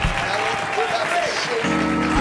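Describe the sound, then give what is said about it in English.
A church audience claps in praise during a worship service, a dense, steady patter of many hands. A sustained low musical tone joins partway through and continues under the clapping. “I want you to clap your hands unto him and lift up some praise.”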